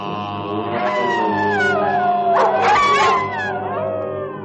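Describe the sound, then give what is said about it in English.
A wolf howls at the moon: sustained, wavering howls with tonal glides that ring fairly loud and steady throughout, over a continuous droning background. “While the wolf in nightly prowl bays the moon with hideous howl.”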